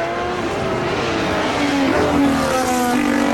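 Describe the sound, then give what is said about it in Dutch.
Formula 1 car engine running an out lap, a dense, loud, high-pitched mechanical whine that holds steady throughout, with its tone shifting partway through. “Uiteraard rijdt deze Lando Norris een stevige outlap. Dat doet hij goed.”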